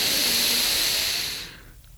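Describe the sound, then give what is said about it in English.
A deep exhale during a guided rib-breathing exercise: a steady, breathy hiss that lasts about a second and a half, then trails off into quiet. “We inhale, and then we exhale into the center. Go another one.”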